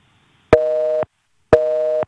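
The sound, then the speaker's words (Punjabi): Telephone busy signal: two identical tones, each lasting about half a second with an equal pause between them. Steady and clear, with nothing else audible. “ਲੱਗਦਾ ਫਿਰ busy ਚਲ ਗਏ ਤੁਹਾਡੀ।”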